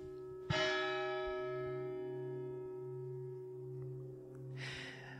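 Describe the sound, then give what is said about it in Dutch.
A church carillon bell strikes twice, a few seconds apart. The first stroke is loud and rings on in a long, slowly fading hum, and a steady low tone lingers beneath both strokes. “En dat doet toch iets met de ziel om de klok van de kerk te horen.”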